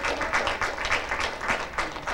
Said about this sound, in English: Give God a hand clap tonight.